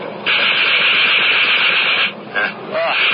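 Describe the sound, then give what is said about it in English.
Machine guns firing on an old Morane fighter plane: a loud, continuous, rapid rattling roar that drops out briefly near the end, then resumes. “The Morane fighter is an old friend. I'm going to try the guns. These are new to me.”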